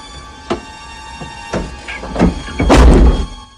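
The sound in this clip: A car door shuts as a man gets into his car, heard as a few dull thuds and knocks spread across the moment, the heaviest and longest thump coming near the end.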